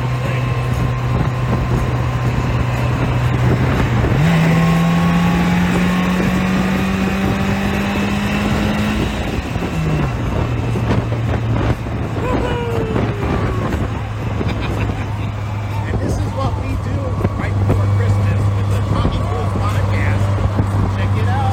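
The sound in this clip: Engine of a Slingshot three-wheeled car being driven, a loud, steady drone that climbs in pitch for several seconds, drops abruptly as if shifting gear, then settles into an even hum.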